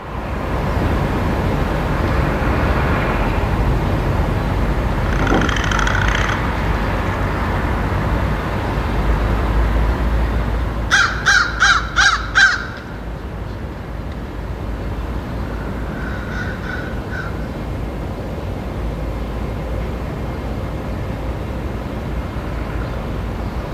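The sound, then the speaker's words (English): An American crow caws in a quick run of several harsh calls, with fainter calls before and after, over a loud, steady background rumble. “American Crow.”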